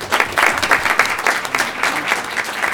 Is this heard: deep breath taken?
no